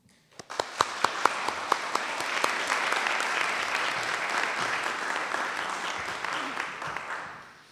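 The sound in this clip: Audience applause welcomes an author before her talk on Finnish science fiction and fantasy. It starts with a few sharp claps, swells quickly into a dense, steady wash of clapping, and fades out at the end.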